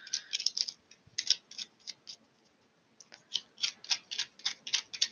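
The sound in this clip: Tarot cards are shuffled in crisp, rapid runs of papery clicks, with a quiet pause midway before a longer burst of snapping riffles.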